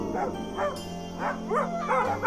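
Dogs barking and yipping at night while a man sits on the ground stroking their heads; a few short, bright barks come in separate bursts over a steady low hum, with no voices.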